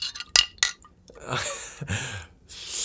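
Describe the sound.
A spoon stirring Splenda sweetener into a drink clinks against the glass twice, sharp and bright, then gives way to a longer stretch of soft swishing liquid noise.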